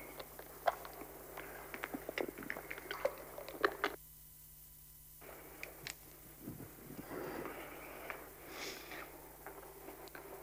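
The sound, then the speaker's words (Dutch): Someone takes a sip of a drink, with soft wet slurping, swallowing and small mouth clicks, all faint and spread over a few seconds. “Even een slokje.”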